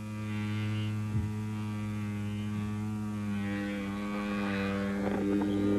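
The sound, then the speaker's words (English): A Panasonic Wet Dry Rechargeable electric shaver runs with a steady, unbroken buzzing hum that holds an even pitch and loudness throughout. “Now, whether you prefer shaving wet or dry, the Panasonic Wet Dry Rechargeable will make shaving close, clean, and comfortable.”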